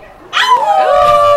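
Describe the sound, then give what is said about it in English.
A stray dog gives a brief, loud howling whine. It starts with a sudden yelp, then holds a single drawn-out, wavering cry that slowly falls in pitch. “That's not the wolf pack. That's a stray dog, man. That's a stray dog.”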